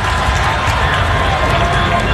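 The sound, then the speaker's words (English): An audience cheers and makes noise in a dense, continuous roar of voices that stays loud and even, with no single voice standing out. “Make some noise for that question right there.”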